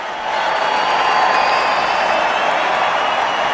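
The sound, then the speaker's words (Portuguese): A stadium crowd at a Paris 2024 Olympic women's football match between Brazil and Japan applauds a veteran player as she leaves the pitch, a loud, steady roar of many voices and clapping that swells in after a brief quieter start. “A Rainha Marta sai aplaudida, ouça os aplausos!”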